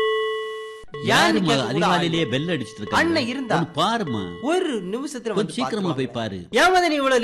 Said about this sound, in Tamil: எத்தனை தடவை பெல் அடிக்குது, பெல் உடஞ்சு போகும் போல இருக்க.